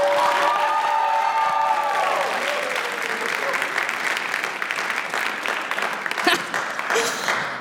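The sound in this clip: Audience applause welcoming a speaker to the stage, dense, loud clapping with some cheering that continues steadily and eases slightly toward the end.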